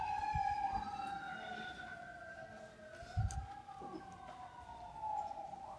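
Emergency vehicle sirens wail steadily, their pitch sweeping gently up and down over a low background rumble.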